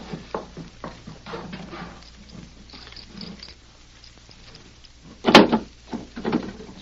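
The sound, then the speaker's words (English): A safe door is opened during a robbery, with faint shuffling handling noises followed by one sharp, loud metallic clunk and a softer knock just after. “Now, open that safe. And don't get any more notions of stalling or I'll fill you full of holes. Yeah, I'll open it.”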